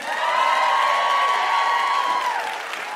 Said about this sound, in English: Give it up for David Harbour.